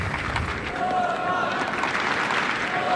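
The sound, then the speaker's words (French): A tennis crowd on Court Philippe-Chatrier, under the floodlights, cheers on the Argentine player. Their encouragement forms a dense, sustained roar of clapping and noise that stays at an even level throughout. “Vous entendez le public qui se met à encourager le joueur argentin. Alors que les projecteurs du cours Philippe Châtrier ont été allumés.”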